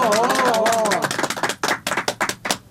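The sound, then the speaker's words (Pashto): Hand clapping from an audience welcoming a poet to the stage at a Pashto poetry gathering. A speaking voice comes first, then many separate, uneven claps follow in a loose, patchy patter. “لاسونه ورته وپړقوي.”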